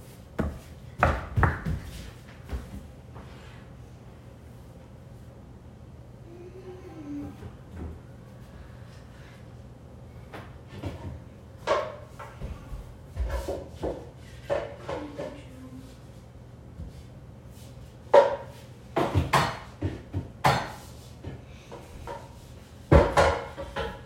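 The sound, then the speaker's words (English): Kitchen clatter as someone fetches a bowl for a salad while making dinner: a few wooden knocks, cupboard or drawer thuds and dish clunks scattered over a quiet background, growing busier toward the end. “Okay, let me go get a bowl for my salad.”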